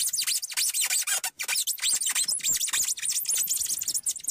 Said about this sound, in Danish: Det, du skal søge på, hvis du er vild med den lyd her, det er 10 hours of styrofoam squeaking.